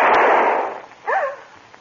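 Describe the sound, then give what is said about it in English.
A single loud gunshot bursts out and its noisy tail fades over most of a second, followed by a brief high cry. “What in heaven's name? Who fired that shot?”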